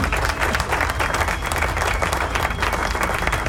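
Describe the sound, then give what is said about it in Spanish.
Steady, dense applause from a crowd, many hands clapping at an even, fairly loud level from start to finish with no single voice standing out. “Así que aplauso, please, aplauso.”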